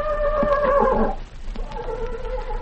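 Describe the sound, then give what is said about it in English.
A horse in a tack room neighs, giving a loud, tonal whinny for about a second, then a softer, shorter second call after a brief lull. “And that was my famous movie Horst Harrison, working his head out to say hello to all you riding pals.”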